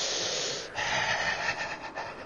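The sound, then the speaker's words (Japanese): A deep breath drawn in during a guided breathing exercise: one long, airy inhale lasting about two seconds, a steady breathy hiss with a brief dip near the start. “深呼吸しましょう。はい、行きます。吸って、”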